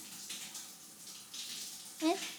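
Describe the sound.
Running water for washing flows as a faint, steady hiss throughout, with a brief voiced sound near the end.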